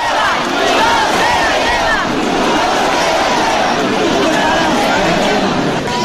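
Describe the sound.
A festival crowd at the Cascamorras in Guadix: a dense, continuous wall of shouting, cheering and chatter from many voices, loud and steady throughout with no pause.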